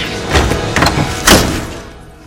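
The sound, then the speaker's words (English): A brass door knob is yanked and twisted, then the door opens: a few dull, rattling clunks with noisy scraping between them, the loudest near the end before the sound fades away. “twists the knob and the door opens”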